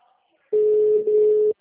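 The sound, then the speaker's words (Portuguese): A telephone ringback tone heard while calling someone: a single steady mid-pitched tone lasting about a second, alone. “Eu tô ligando para ele.”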